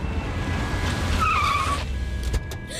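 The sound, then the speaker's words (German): Tires squeal as a car brakes hard and skids to a stop while fleeing police. A steady engine rumble runs throughout, a high squeal rises over it midway, and a brief bump near the end is followed by quieter rumble. “Los, halt den Wagen an. Mach schon. Mach schon.”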